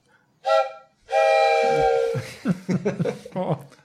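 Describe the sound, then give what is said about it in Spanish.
A train horn sounds as a train arrives, with a short blast followed by a longer sustained one. People then start talking. “¡Ahí viene el tren!”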